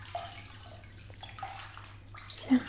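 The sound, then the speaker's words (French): Faint water sloshing and trickling as a child's hair is rinsed in a bathtub, a soft, steady wash with a few small splashes and a slightly louder one near the end. “Tu peux remettre ta tête en arrière que je puisse te rincer?”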